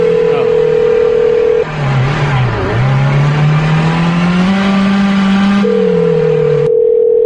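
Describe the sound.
A steady telephone tone from a phone call being placed, sounding at the start and again near the end, with a loud car engine revving and rising underneath before the tone cuts off.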